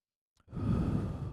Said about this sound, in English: after we have had this cathartic moment, we're going to take a deep breath.